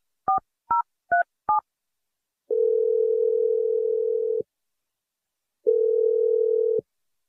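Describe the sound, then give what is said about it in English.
A telephone being dialed: four quick, separate two-tone keypad beeps, followed by two long, steady, even tones with a pause between them, heard alone against silence. “I'm dialing your number right now.”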